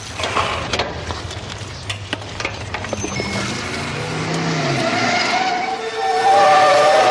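A red car skids with squealing tires, engine noise rising beneath sweeping, wavering squeal tones that grow louder and denser toward the end, with no voices.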